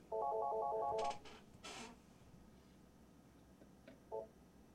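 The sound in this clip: An incoming call on a phone line sounds as a fairly faint electronic ring: a short burst of rapid warbling beeps that stops after about a second, then hiss and a single brief beep near the end.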